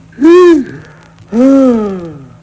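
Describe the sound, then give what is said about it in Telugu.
A voice imitates the snoring of a sleeping person: two loud, drawn-out, throaty snores with strong tonal buzz, separated by a short silence, the second longer than the first. “మంచి గురకలో ఉన్నట్టున్నారు. అబ్బా లెక్కలు తేలక నిద్రపట్టక నేను వస్తుంటే పైగా గురకంటాయ్యా ఇవి గురకలేమిటి?”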